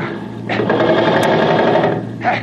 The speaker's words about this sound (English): Here, cover him with that machine gun